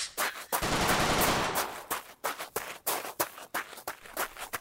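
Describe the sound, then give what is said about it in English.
Gunfire from people shooting through a hole they have made: a loud, sustained rapid burst, then many separate sharp shots at an uneven pace. “they've made a hole and they're shooting through it.”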